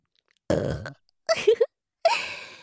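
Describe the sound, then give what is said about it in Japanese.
Three low, rasping burps, each loud and standing alone, the middle one broken into several short pulses, with brief silences between them. “準備運動って言ったから一回だけのしょぼゲップとか思ってたんじゃないですか？”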